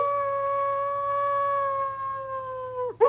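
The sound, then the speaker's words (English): A creature stabbed in the chest with a stake gives a pained, wolf-like yowl: one long sustained wailing tone that sags slightly in pitch, then breaks into a short rough burst at the end. “she gasps and yowls”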